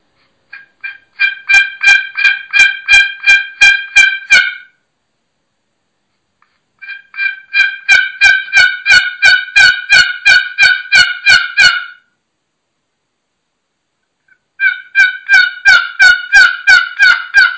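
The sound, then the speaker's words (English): A one-sided wooden turkey box call yelps in three separate runs of rapid, loud, raspy notes, each run a dozen or so evenly spaced yelps, split by a few seconds of silence. “That's the one-sided box call.”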